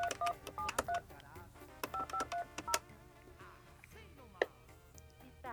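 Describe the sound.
Telephone keypad dialing tones come in two quick runs of short, bright, evenly spaced beeps. Softer clicks and faint rustling follow after the dialing.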